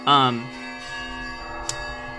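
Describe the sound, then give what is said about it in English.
Big church bells ring in celebration. A loud opening strike gives way to a sustained, humming ring that fades slowly and evenly. “these bells are also celebrating. You know, just so happy bells, happy big bells.”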